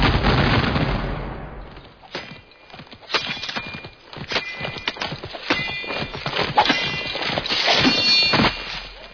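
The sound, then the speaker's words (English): A firing squad's rifle volley opens with a loud, sharp crack that rings out and decays, followed by a long run of scattered clattering knocks and thuds. “Attention, company! Ready! Aim! Fire!”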